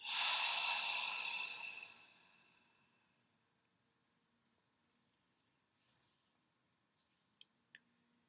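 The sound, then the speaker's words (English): A deep, slow breath is let out during a guided breathing exercise. The soft, airy rush is loud at first and fades over about two seconds, then near silence follows with a few faint small clicks. “Breathe in and let it go.”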